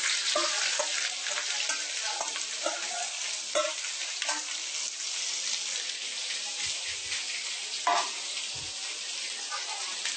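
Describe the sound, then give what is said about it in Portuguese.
Onion fries in hot olive oil with a steady, bright sizzle and scattered crackles and pops. A few sharper spits and soft stirring sounds rise above the constant hiss. “Para deixar esquentar muito, porque o azeite de oliva queima muito, muito rápido. A gente coloca a cebola.”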